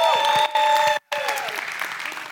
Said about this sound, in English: Can you welcome some of our young adult leaders?